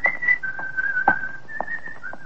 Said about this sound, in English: And then you walk along the street, whistling in the light for a change.